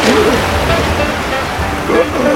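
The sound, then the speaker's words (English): Swirling river water rushes in a loud, continuous churning roar, with voices heard over the steady wash. “The broken main rope sank under the water as the wagon began spinning round and round in the middle of the swirling river.”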